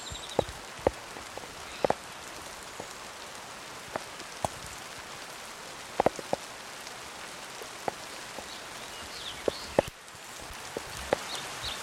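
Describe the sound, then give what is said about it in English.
Hail falling during a storm at Cherokee: a steady, rain-like hiss runs throughout, punctuated by scattered sharp clicks of stones striking a hard surface at irregular intervals. “hailstorm in progress”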